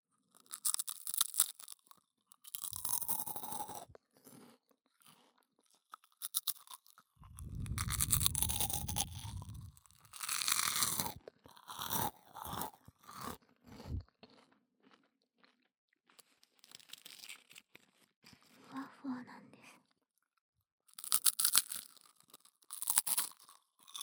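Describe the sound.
Very crispy food crunched in close detail: many sharp, dry crackling bursts come in irregular clusters with brief pauses between them, bright and brittle, and no voices.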